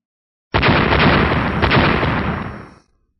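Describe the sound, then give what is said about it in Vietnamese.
A loud explosion bursts in midair as white fire scatters down onto surrounding snow, a single sustained, rumbling blast that hits suddenly, roars for about two seconds, then fades away. “Một hồi âm thanh nổ đùng đoàn vang lên giữa không trung, vô số ngọn lửa màu trắng bắn ra”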